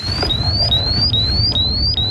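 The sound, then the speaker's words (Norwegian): Gas detector alarm sounding in a livestock barn where manure is being stirred: a repeating series of short, high, rising chirp tones at a steady quick rhythm over a low rumbling background. “Alarmen går fra gassmåleren.”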